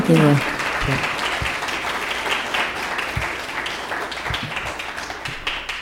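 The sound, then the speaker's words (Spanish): Audience applause at a bilingual morning meditation gathering, a steady stream of moderate clapping with scattered sharper claps, after a brief voice at the very start. “Démosle un aplauso.”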